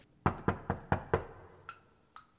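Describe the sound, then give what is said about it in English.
Knocking on a door: five firm, evenly spaced raps in a quick, steady rhythm, each a little softer than the one before, followed after a pause by two lighter, sharper taps. “Hang on, I'll get the door.”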